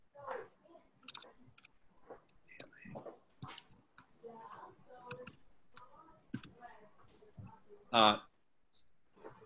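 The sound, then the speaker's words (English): Retyping a web address on a computer keyboard: light, irregular key clicks scattered across the stretch in uneven bursts, with one louder clattering burst near the end. “It spell corrected ALA to planet. So then I retyped ALANET.org.”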